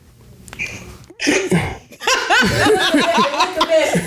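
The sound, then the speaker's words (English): A woman clears her throat with a short, rasping burst. People then talk and laugh. “Now she cleared the throat.”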